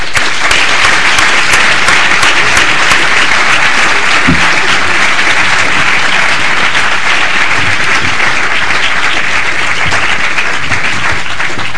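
An audience applauds after a debate at the LSE on party-appointed arbitrators, with dense, continuous clapping that stays steady and loud for about twelve seconds.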